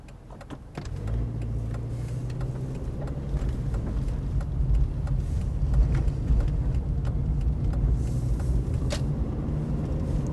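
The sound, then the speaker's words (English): Loud, steady road rumble from a car driving on a highway, a dense low roar of tyres and engine that thickens shortly after the start and holds on without talk. “Maybe we should pause until we get off the highway. I feel like it's pretty loud.”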